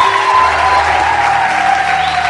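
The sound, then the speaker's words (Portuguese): An audience applauds at a campus church service, a steady, dense wash of clapping that holds at a constant level for the whole stretch. “Oh, palmas para o Senhor.”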